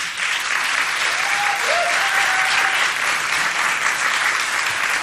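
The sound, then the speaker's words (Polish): Studio audience applauding at a radio talent contest: a dense, even wash of clapping that holds a steady loudness for about five seconds, with no talk over it. “Dziękujemy za te pierwsze oklaski na rozgrzanie.”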